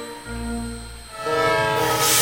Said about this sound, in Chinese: 哇，火车来啦！